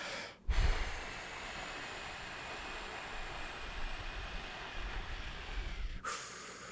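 A forceful breath is blown into a ball breathing exerciser, producing one long, steady, breathy hiss that lasts about five seconds, alone.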